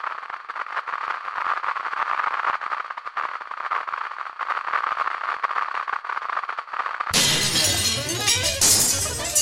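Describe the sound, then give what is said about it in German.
Glass shatters from thrown stones: a sudden bright crash of breaking and falling shards bursts in after several seconds of steady crackling, hissing noise, and stays loud to the end. “Die Steine, die sie geworfen hatte. Das klirrende Glas. Die fallenden Scherben erschreckten die Menge.”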